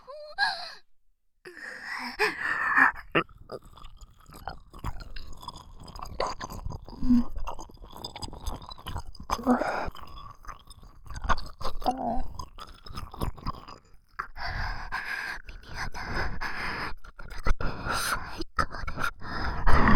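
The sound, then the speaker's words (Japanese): Wet licking and mouth sounds deep in the ear for ASMR, many irregular smacks and slurps close and fairly loud, mixed with breathy sighs and gasps. “ずっとそのお耳の奥まで舐めたいと思ってたんです。ありがとうございます。それじゃあ舐めさせていただきます。”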